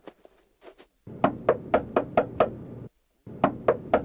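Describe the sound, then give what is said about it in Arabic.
Knocking on a door: six quick, firm raps in an even rhythm, a short pause, then three more raps in the same pattern. “من الطارق؟ أنا الفضل بن الربيع، افتح يا شافعي.”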